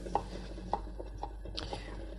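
A knife cuts sausage and cheese into strips with a few crisp chopping strokes, the first two loudest, followed by softer irregular cuts over a low steady hum.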